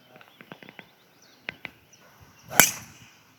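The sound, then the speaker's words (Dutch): A golf club strikes a ball with a single sharp, fairly loud crack and a short noisy tail, preceded by several faint, scattered clicks and ticks. “Ode aan Payne Stewart, de beste swing aller tijden. Dus ik ga deze swing maken. Laat maar even een bal voor.”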